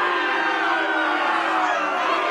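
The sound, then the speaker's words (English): An audience boos with a sustained, droning crowd vocalization that holds at a steady level with no clear breaks. “Oh wow. They're booing. They're booing. They should be.”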